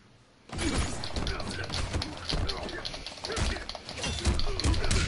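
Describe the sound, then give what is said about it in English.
Swords clash against armor in a video game fight with Shinnok: after a brief quiet moment, a loud, dense barrage of metallic clanging and crunching hits runs continuously to the end. “See, we just heard that, like, sword sound, like armor.”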